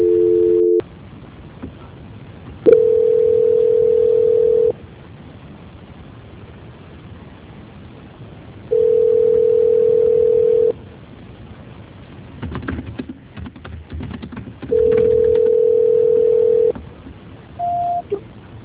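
A telephone call rings out unanswered: a narrow-band ringback tone repeats in steady bursts of about two seconds with longer quiet gaps between them, followed by a short higher beep at the end.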